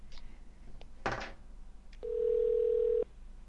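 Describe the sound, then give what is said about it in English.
A steady telephone-style tone from a dial tone generator, used alongside a blue box, sounds for about one second at an even level, preceded by a brief noisy burst and a few faint clicks. “Have my dial tone generator already. Got my blue box in hand.”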